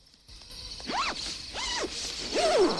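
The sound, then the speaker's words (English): Zipping up the side zipper of a sleeping bag: three fairly faint zip strokes, each a short rasping sweep, spaced out over a couple of seconds. “peers inside the sleeping bag, then gets in and zips up the side.”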